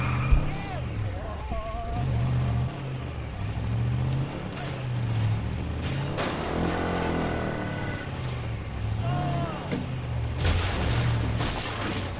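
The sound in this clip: A car in an open-world action video game drives past, its engine making a steady low rumble with shifting pitch that swells and fades over several seconds.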